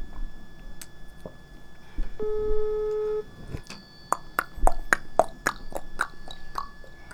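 A telephone call rings out while waiting for someone to answer: one steady electronic ring tone lasting about a second, followed by a run of sharp clicks and taps.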